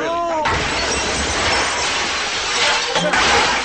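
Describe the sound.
Two-way mirror glass shatters as a pistol swings into it: a loud, sustained crash of breaking glass, with scattered tinkling fragments continuing to the end.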